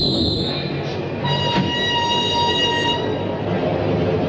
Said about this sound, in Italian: Si va alla stazione. Sì, giusto. Buon idea. Quello che ci vuole.